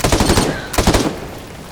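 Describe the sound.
AK rifle gunfire in a video game: two loud bursts of rapid automatic shots, the second one shorter, each followed by a brief decaying tail.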